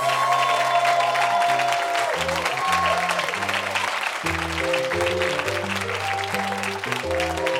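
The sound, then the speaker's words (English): An audience bursts into steady applause to welcome a guest onto a comedy show, unbroken throughout, with an upbeat musical tune playing alongside. “Ladies and gentlemen, please give it up for Patton Oswalt.”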